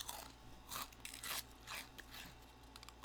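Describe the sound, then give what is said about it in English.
Crisp crunches as fortune cookies are bitten and chewed, a few quick crunching bites in close succession, faint and with no talking. “Let's open up some fortune cookies. We'll do a little quick mukbang.”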